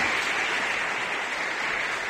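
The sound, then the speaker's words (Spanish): Applause from an audience at a public ceremony honoring several people, a fairly faint, steady wash of clapping that holds evenly throughout. “Aplausos dirigidos a personajes que hoy han sido los protagonistas.”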